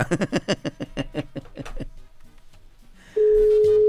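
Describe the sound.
Telephone call tone: after a stretch of talk, a single steady low-pitched tone starts abruptly and holds loud and unbroken to the end.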